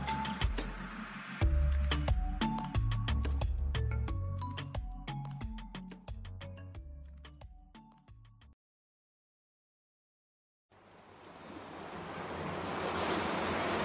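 Sea surf as if heard in a seashell, a broad rushing wash that swells steadily louder after a brief silence, preceded by a stretch of clicking, tonal sound.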